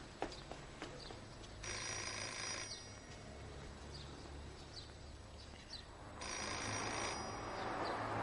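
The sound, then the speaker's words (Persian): A telephone rings faintly in a couple of separated bursts, its high, trilling tone rising over a quiet background hum. “تلفن رو جواب بده. برو”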